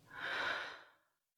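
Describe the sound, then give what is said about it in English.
A single slow, deep exhale of breath: a soft, airy rush that swells for about a second, then fades away, alone with no talking. “and slowly breathe out.”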